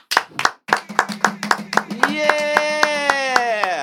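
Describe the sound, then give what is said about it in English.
Sharp, evenly spaced hand claps from a talk-show audience welcoming a guest beat out a steady rhythm throughout. A sustained, voice-like tone enters and holds under the claps in the second half. “So I would like everyone to please make some noise for Mrs. Wanted Body, a.k.a. Ninjer.”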